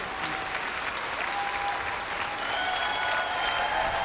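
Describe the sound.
Concert audience applauding at the Wytwórnia club in Łódź during a live album recording, a dense, even wash of many clapping hands sustained without a break.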